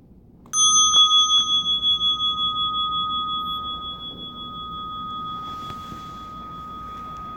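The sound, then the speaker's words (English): A meditation bell is struck once and rings out as a clear, bright sustained tone. Its wavering, pulsing resonance slowly fades over several seconds in near silence. “opening your eyes to the sound of the bell”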